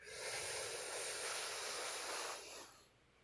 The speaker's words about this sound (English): So go ahead and take a deep breath in.